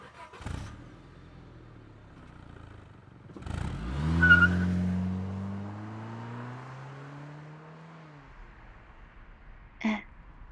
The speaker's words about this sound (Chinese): 快点开车吧。